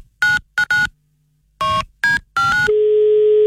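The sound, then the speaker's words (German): Telephone keypad dialing for a surprise call to a groom: several sharp dual-tone beeps in uneven groups, then a long steady line tone that holds to the end, with no talking. “Jetzt ein Überraschungsanruf von uns bei einem Bräutigam. Mhm. Und das machen wir jetzt, denn morgen wird schon geheiratet.”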